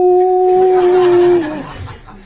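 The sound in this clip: A person imitates a wolf howl, holding a sustained, steady mid-pitched vocal tone for about a second and a half before it slides downward and trails off.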